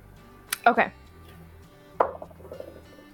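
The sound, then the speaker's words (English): Tabletop dice clattering in two short bursts of rattling clicks, the second followed by a few lighter bounces before it settles. “I just rolled the wrong freaking dice.”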